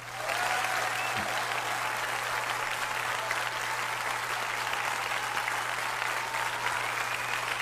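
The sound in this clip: Loud, dense applause from a crowd, steady clapping that stays even and unbroken from start to finish with no pauses.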